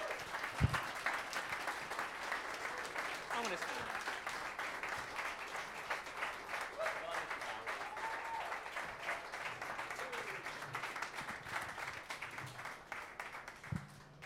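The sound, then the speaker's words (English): Warm, sustained audience applause welcoming three guests onto a stage at a film event. A dense, even wash of clapping holds steady for the whole stretch, with no voices over it. “So, please welcome, with the warmest round of applause possible, three very important people.”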